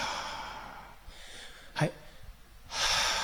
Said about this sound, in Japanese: もう一回深呼吸みたいにして、普通に吐いてください。してポンと吸います。